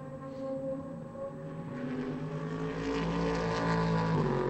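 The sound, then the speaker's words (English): A Chevrolet Corvette race car rumbles past during a 2018 sports car championship session at Laguna Seca. Its deep, droning engine tone steadily grows louder, with no talking over it. “No doubting what that is rumbling past us. Yes, that was a Corvette.”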